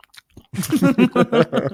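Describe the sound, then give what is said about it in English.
Wet, sloppy chewing of a mouthful of chili from a bowl, eaten while gaming: loud, close mouth sounds in a rapid, rhythmic run of pulses after a brief quiet start. “we're gonna play some Call of Duty tonight, and I'm gonna enjoy this chili while I do it.”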